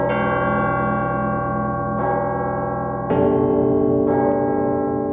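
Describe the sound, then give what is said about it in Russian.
Church bells peal on a frosty October morning in Moscow, a loud, dense ringing with rich overlapping tones that hum on continuously as a few fresh strikes land about a second apart, with no voices. “Колокола звонят, небо голубое, солнце.”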